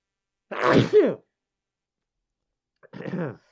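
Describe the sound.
A single sharp human sneeze bursts out loudly and briefly, followed after a pause by a short voice.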